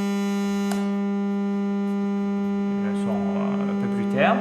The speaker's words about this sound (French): Si je mets une valeur plus basse, mettons 1000 hertz,